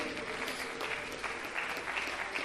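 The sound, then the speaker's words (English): Hand clapping in praise from a church audience, a faint, dense and continuous patter of many hands that holds steady throughout. “Let's give God a hand clap of praise.”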